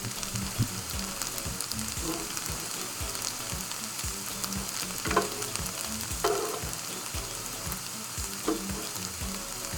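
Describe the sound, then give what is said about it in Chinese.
Shrimp pasta being stir-fried in a pan, with a steady crackling sizzle and repeated scraping from the stirring. A few sharper clatters stand out midway, and no voices are heard. “然后呢，拌炒一下，然后加入刚才的这个煮面水不要浪费哦”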